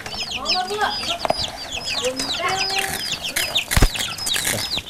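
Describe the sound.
Chickens cluck and chatter continuously, with many short, high chirping calls layered over a busy, fluttering backdrop.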